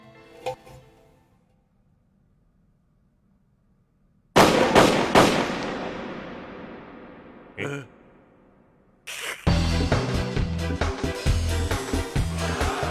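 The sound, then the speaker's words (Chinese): Gunshots from a pistol in a bar shootout in the animated film Tokyo Godfathers: a few sharp, loud cracks with ringing tails separated by short quiet gaps, then a dense, loud burst of sound. “就在这个节骨眼上，一旁的黑人女服务员突然化身杀手，朝着黑帮大佬掏出手枪。”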